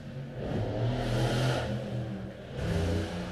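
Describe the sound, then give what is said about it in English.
A car arriving outside a house, its engine revving and swelling, easing off briefly, then rising again at a moderate level. “Wow, my ride's here. I'm sure you heard that, even though it was outside of my house.”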